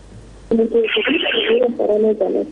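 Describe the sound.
A telephone rings as a listener calls in to a radio program, sounding a bright, buzzy ringing tone in bursts that starts abruptly after a brief pause and carries on to the end.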